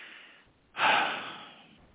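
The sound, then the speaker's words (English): A sharp intake of breath taken mid-sentence during a spoken commentary: one sudden, loud, rushing inhale that peaks quickly and then fades slowly, with no words spoken over it. “I had to breathe on that word”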